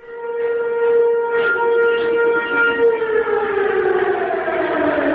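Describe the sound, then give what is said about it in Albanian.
Alarm sirens wail in northern Kosovo in the early morning, calling Serb citizens to protest at a border crossing. It is a loud, steady mechanical tone with harmonics that slides slightly lower toward the end, with no talk. “Që nga orët e hershme të mëngjesit të sotëm në veriun e Kosovës janë dëgjuar sirenat alarmuese përmes të cilave janë ftuar qytetarët serb që të protestojnë”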